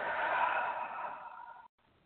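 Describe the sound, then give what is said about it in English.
A single long, deep breath let out in a steady hissing exhale that slowly fades, then stops abruptly, leaving near silence. “Deep breath in. Hold it and let it out.”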